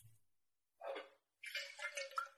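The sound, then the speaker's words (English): Water poured into a glass, heard as two short bursts of splashing, trickling liquid separated by a brief pause, the second burst longer and more uneven. “Here, let me get you some water too.”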